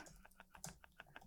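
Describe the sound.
Typing on a computer keyboard to search online: a quick, uneven run of soft, clicky keystrokes, quiet and alone, ending on a slightly louder tap.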